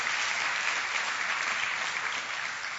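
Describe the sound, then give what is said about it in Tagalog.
Audience applause fills a religious gathering as the audience claps in praise, a steady, dense patter of many hands that holds evenly throughout at moderate loudness. “Pwede bang palakpakan natin ang Panginoon sa kanyang kabutihan sa atin?”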